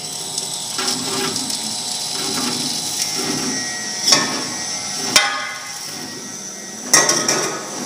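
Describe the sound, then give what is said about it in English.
Stone wheel grinder churning Costa Rican cacao nibs into liquid chocolate, a steady mechanical whir with a low rhythmic rumble and a few sharp clacks. “So you just add the nibs slowly until the wheels slowly grind them bit by bit and they begin to turn into a liquid.”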